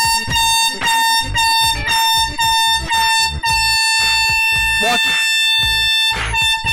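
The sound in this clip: An air horn blares with a loud, sustained, harmonic tone held through the whole clip, punctuated by rapid rhythmic pulses.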